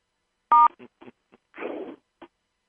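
A telephone keypad tone sounds while callers on a conference call are muted. One short, loud, pure beep is followed by a few faint clicks and a brief soft hiss.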